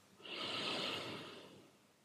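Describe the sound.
A single slow, deep breath, soft and airy, swells gently and then fades over about a second and a half.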